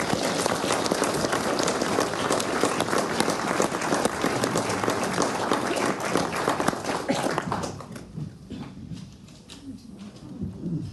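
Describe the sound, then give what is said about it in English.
Audience applause welcoming the Lost Poets onto the stage at the National Library of Scotland: dense, sustained clapping that thins out toward the end, leaving scattered claps. “Could you please put your hands together and welcome Ron Butlin, Andrew Greig, Liz Lochhead, Brian Cain, James Hutcheson, the Lost Poets.”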